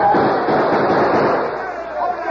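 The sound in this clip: Gunfire crackles in a radio drama battle as cavalry charges outlaws, a dense, continuous barrage of shots blending into loud noise with voices beneath.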